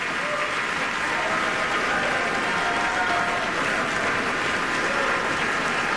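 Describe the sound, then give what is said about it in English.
A concert audience gives a standing ovation to musicians returning for a bow. Warm, steady applause fills the whole stretch at an even, continuous level. “loudly for that beautiful performance. Such a warm reception for the audience, from the audience, as the musicians come back out on stage to take another bow.”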